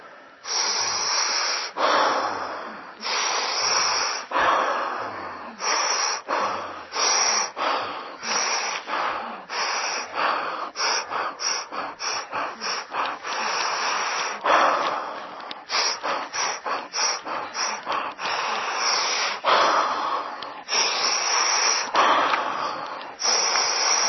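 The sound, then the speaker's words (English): Rhythmic breathwork: many forceful, rapid breaths in and out through the nose and mouth, sharp airy rushes repeating in a steady driving pulse for the full stretch, with brief gaps between some breaths and no talking. “The breath not only wakes up our highest beautiful things, it also wakes up all the blocks to it. So you keep the breath moving.”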